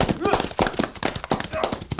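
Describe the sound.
Horses clip-clopping as riders set off at a gallop toward the woods, quick uneven hoof beats mixed with excited voices calling out over the top.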